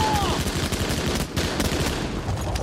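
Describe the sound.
Covering gunfire in a combat scene, with dense, rapid bursts of loud shots crackling almost without pause from start to finish.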